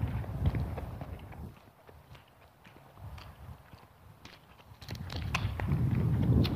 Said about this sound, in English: Walking and not talking.